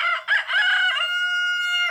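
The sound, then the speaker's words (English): A rooster crowing once, loud and alone, with a choppy start that settles into a long, sustained, strained call before cutting off. “Ever been woken up really early in the morning by this sound? And before you know it, you and every rooster in the neighborhood are wide awake before the sun has even risen.”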